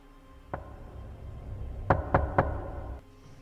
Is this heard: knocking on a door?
yes

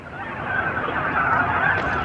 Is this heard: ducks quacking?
yes

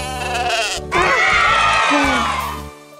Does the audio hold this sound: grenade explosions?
no

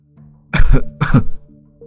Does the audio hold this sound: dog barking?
no

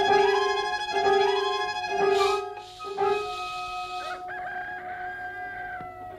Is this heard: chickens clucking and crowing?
yes

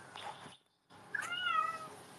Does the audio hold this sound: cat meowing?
yes

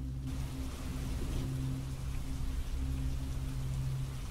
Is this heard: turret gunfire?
no

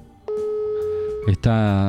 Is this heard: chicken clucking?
no

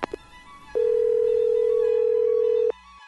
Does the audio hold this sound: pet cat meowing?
no

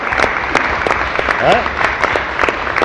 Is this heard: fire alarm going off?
no

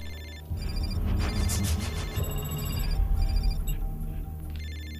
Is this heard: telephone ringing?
yes

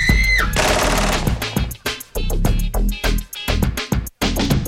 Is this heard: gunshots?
yes

